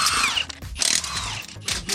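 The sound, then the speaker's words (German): Whirring bursts from a motorsport-style power tool loosening car wheel bolts during a tyre change: a few short, high-pitched spins separated by brief pauses, with no talking. “Jetzt lösen wir mal die Radschrauben.”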